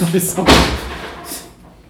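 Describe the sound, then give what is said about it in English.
Patio doors blown open by the wind give a single loud bang that fades away, with talking around it. “That noise was because Dan's patio doors have just been blown open.”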